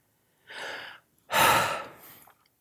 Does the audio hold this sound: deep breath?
yes